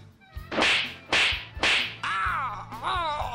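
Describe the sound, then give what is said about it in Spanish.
Three sharp, loud slaps to the face in quick succession, each a bright cracking smack. A wavering, wailing cry follows the blows. “Te voy a dar unas, te voy a dar unas cachetadas, eh.”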